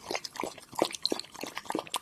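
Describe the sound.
A thirsty dog drinking water, with rapid, rhythmic wet lapping and slurping: many quick splashy laps in a steady run, moderately loud and alone.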